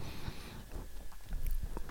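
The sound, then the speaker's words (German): Someone chewing Toblerone chocolate, with soft munching and a few sharper crunchy bites over a steady background hiss. “Toblerone esse ich.”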